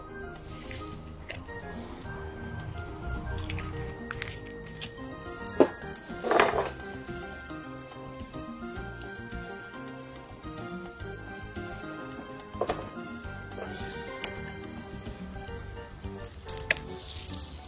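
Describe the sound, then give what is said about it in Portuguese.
Picanha steak grills in a pan with butter and a drizzle of olive oil, giving a steady sizzling hiss with scattered sharp pops and spits throughout. “Aqui eu vou grelhar a minha picanha com manteiga e um fiozinho de, de azeite, ok?”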